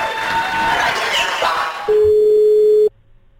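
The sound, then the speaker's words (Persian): Telephone line tone while a radio station calls a listener: about a second of steady, loud, single-pitched tone follows noisy crowd cheering, then cuts off abruptly. “تماس مستقیم داریم با یک شنونده خوش شانس.”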